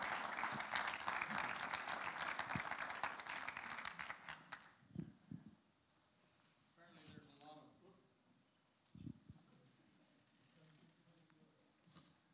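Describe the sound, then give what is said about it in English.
Audience applause welcomes a guest speaker at a church gathering: dense clapping for about four seconds that thins and fades, then quiet with scattered sounds and a voice speaking. “Can we give Dr. Phil a great, great hand?”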